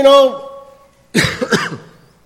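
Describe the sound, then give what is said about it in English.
A few harsh coughs from someone preaching a church sermon, a short cluster of rough bursts that follows a brief voiced sound and then fades out. “I have a little cough this morning, so you'll have to excuse me.”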